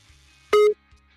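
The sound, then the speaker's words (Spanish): A single short electronic telephone tone sounds as a call is placed, clear and bright, holding for a fraction of a second between near silence on either side. “Ya estamos marcando, cállense.”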